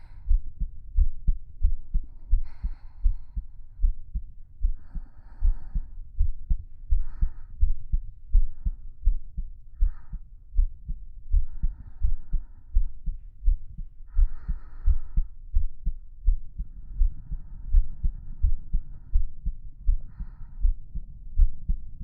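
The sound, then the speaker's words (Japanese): A pounding heartbeat gives many steady, rapid low thumps in an unbroken rhythm, with faint soft rustles now and then above the beat. “自分でも聞こえるぐらいバクバク言ってんのに。”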